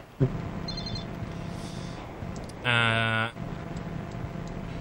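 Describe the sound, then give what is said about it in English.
Telephone ringing: a single loud electronic ring burst with a buzzy, harmonic-rich tone, lasting under a second, standing out against a low steady hiss. “Oh, that's my phone.”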